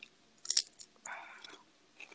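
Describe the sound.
Chips being crunched while eating, a few faint, brittle bites and chews spaced irregularly across otherwise quiet moments.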